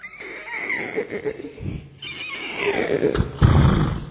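A horse neighing: a long, wavering whinny with shaky harmonics that stays loud throughout and swells again toward the end, with no talk over it.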